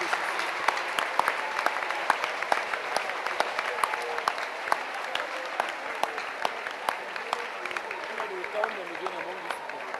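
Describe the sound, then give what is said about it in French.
An audience applauding to acclaim the Lord Jesus during a church service, a long, dense burst of clapping with crisp individual smacks sparkling through the steady roar and voices mixed in. “Acclamons le Seigneur Jésus très fort.”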